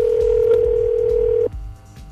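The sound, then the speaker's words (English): A telephone dial tone hums steadily and loudly for about a second and a half, then cuts off abruptly and gives way to a quieter, softer tone. “Let me dial this up real quick.”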